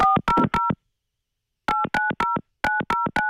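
Touch-tone telephone keypad dialing of a carmaker's customer service number: crisp, evenly spaced dual-tone beeps in three quick groups, the first separated from the rest by a second-long silence, with no talk over them.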